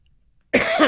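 A sudden, short, harsh cough breaks the quiet as someone clears something caught in the throat. It is loud and rough and is heard on its own.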